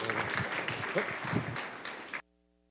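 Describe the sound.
A church audience applauds in welcome of a newly arrived couple, steady clapping with a few voices mixed in, then the applause cuts off abruptly.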